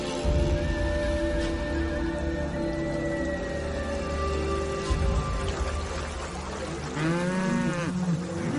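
A herd of cattle lowing: a few long, drawn-out moos rise over a steady rumbling background, with a louder, wavering call near the end.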